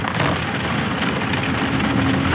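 Steady rain falls outside a window on a gloomy evening, a dense, even hiss of drops with no pauses and no voices.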